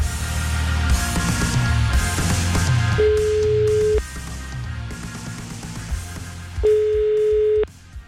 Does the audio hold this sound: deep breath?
no